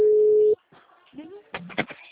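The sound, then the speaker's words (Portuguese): A steady, loud telephone tone from a dropped call holds at one pitch for about half a second, then cuts off abruptly. A voice follows, speaking. “Oi, caiu a ligação.”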